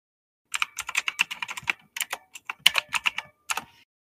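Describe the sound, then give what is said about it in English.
A game name is typed into Twitch on a computer keyboard: rapid, crisp keystrokes clatter in quick bursts, with short pauses breaking the run of clicks. “if I went to Twitch right now, and the game that we are playing on my stream right now is Undertale.”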